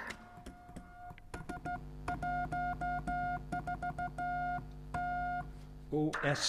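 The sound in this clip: Morse code tone from an amateur radio operator sending a CQ call, a steady electronic beep keyed on and off in quick short and long pulses with brief gaps, fairly loud throughout.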